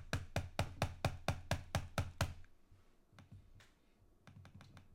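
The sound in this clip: Clicking on a device: a quick, steady run of sharp clicks, followed by a few fainter, scattered clicks after a pause.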